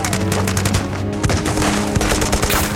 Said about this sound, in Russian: Пулемет косит немцев, как траву.